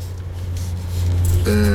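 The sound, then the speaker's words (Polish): An electric fan running on its first speed setting, a steady low hum with an even airy whir above it that grows slightly louder toward the end. “To jest pierwszy bieg. Mhm. To jest ten, na którym może pracować ten wentylator”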